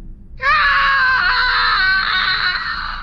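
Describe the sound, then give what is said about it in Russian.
A frightened woman lets out a wild, ear-ringing scream, a single loud cry held steady at a high pitch for over two seconds and heard alone. “Дикий крик, от которого звенит в ушах.”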